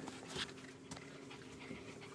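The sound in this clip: Faint panting and snuffling from one of several dogs eager to lick food off a person's pants, with soft, irregular breaths and small rustles at low level and no talk.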